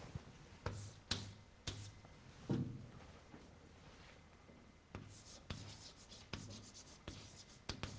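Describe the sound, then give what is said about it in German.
Handwriting: a pen scratches across paper in soft, repeated strokes. Several short, sharper scratches stand out against a faint, continuous rubbing. “ich schreibe jetzt mal hier weiter”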